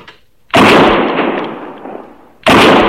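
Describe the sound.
Gunshot fired at an antelope: a loud, sharp report that rolls off in a long rumbling decay, then a second abrupt blast at the very end.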